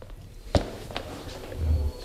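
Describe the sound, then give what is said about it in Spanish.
Footsteps of a person arriving in a press room after a football match: a few soft, irregular steps with one sharper, louder footfall near the start. “¿Qué viene corriendo o qué? Son los pasos.”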